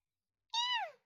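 A hungry kitten meows once: a single short, high, thin cry that slides downward in pitch as it fades, with silence around it.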